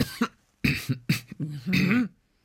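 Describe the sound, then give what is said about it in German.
A person coughs with the mouth closed, producing several short, muffled, throaty bursts with a strained, humming quality, separated by brief pauses. “Können wir denn ohne Mund husten? Also mit geschlossenem Mund?”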